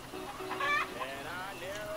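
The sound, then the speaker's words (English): Long-legged Rhode Island Red chickens cluck in a steady, continuous stream of low clucks mixed with a few higher, drawn-out calls, heard faintly throughout. “Got them nice, long-legged, Rhode Island Red chickens.”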